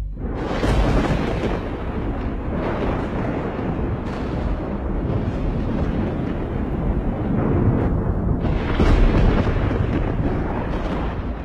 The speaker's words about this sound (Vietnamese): Những tia chớp sáng rực cả bầu trời kèm theo âm thanh sấm nổ đinh tai nhức óc.